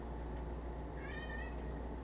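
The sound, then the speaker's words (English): A male cat gives a single faint meow midway through, a short high-pitched call over steady background hiss. “The cat agrees. She thinks it's great. It's a he. He thinks it's great.”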